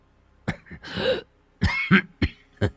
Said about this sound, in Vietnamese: Gã cố kéo tấm khăn cũ mềm che kín cần cổ, thi thoảng lại ho lên sù sụ.